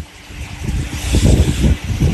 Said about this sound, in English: These are three-phase fans. So we're drawing 1.4 amps on each fan.